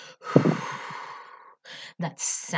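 A deep belly-breathing exhale, a long, breathy rush of air lasting over a second, then a few shorter breaths.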